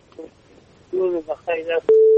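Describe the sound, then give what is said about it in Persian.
A telephone line tone as a caller to a radio call-in is connected: a voice speaks briefly, then a single short, steady, mid-pitched electronic tone sounds loudly and cuts off. “یک تماس دیگه رو وصل می سازیم بشنیم کدام نازنین است از کجا تماس گرفته.”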